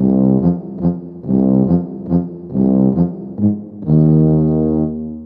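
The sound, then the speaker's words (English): A tuba, a large brass instrument, plays a short phrase of deep, round notes in a steady rhythm, ending on one longer sustained low tone. “A tuba is a large brass instrument. It sounds like this.”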